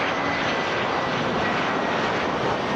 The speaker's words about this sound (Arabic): طوابير من المسافرين وطائرات تقلع وتهبط في تتابع لا يتوقف